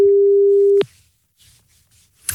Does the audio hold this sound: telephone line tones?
yes